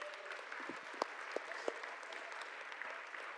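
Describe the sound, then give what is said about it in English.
Applause from a family audience after a Christmas guessing game: a dense, steady crackle of clapping that stays fairly faint throughout, with a few sharper single claps standing out. “let's give him a round of applause”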